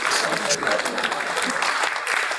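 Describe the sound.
Dense, steady audience clapping fills the short stretch as a continuous, fairly loud crackle of many hands with no break.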